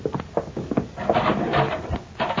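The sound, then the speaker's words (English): A cell block door in a sheriff's jail opening, with a series of clattering knocks and a scraping, rattling sweep, fairly loud and busy. “Now, there's the cell block door. Get going.”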